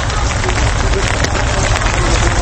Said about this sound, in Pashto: په کندهار کې د تیرې شپې را په دې خوا په شیبو باران ورېږي.